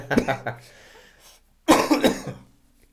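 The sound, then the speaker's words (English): Harsh coughing from one person in two rough bursts split by a short pause, each burst made of several choppy, throaty hacks, fairly loud. “Excuse me. That came out of nowhere. Right. Yeah. You know. But sometimes when you dabble in the recreational activities, coughs are bound to follow.”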